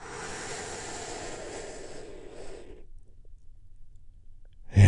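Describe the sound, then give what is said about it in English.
A long deep breath taken during a guided relaxation exercise: a steady, airy hiss of inhaling lasts about three seconds, followed by near silence. “I want you to take a big, deep, healing breath with me right now.”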